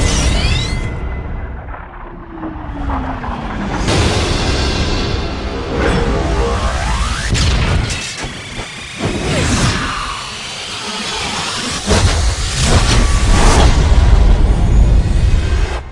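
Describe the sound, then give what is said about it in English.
A fictional breeze cannon powering up and firing, heard as loud, dense sci-fi effects: whooshing sweeps, a gliding tone, booming blasts and roaring noise that swell and surge throughout, with no talk. “Initiate phase one. Power up the breeze cannon.”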